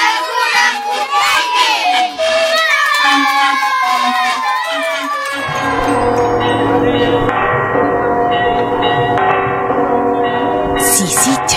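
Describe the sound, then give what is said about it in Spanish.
Church bells of the cathedral in Cusco ring in a dense, sustained peal of overlapping metallic tones. Crowd voices and shouting come first, then the bells take over for the rest. “Esas campanas que tocan son de la Catedral del Cusco.”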